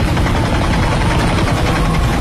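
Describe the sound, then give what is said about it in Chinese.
An aircraft landing from the sky: a heavy, continuous engine roar with a deep low rumble and broad noisy wash, loud and steady throughout with no pause. “维莱恩的飞机从天降落”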